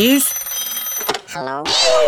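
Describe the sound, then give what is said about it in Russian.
A telephone rings with a steady, trilling electronic tone for about a second, then a voice speaks. “Но прежде позвоним Добрыне. Думаете, телефон его разбудит?”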